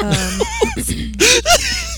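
A man in a film scene, a bus driver, gives strained, wheezy gasps and whimpering breaths. Several short voiced bursts shift in pitch, and the last two are louder and breathier.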